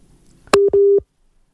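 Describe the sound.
A telephone busy signal follows a dropped radio call-in line: a sharp click, then two loud, steady, mid-pitched tone bursts with the second one longer, followed by silence.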